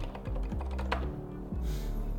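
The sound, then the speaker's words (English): Typing on a computer keyboard during a Google search for local blood donation sites: a few quick keystroke clicks over a steady low background tone. “So I'm just gonna type give blood.”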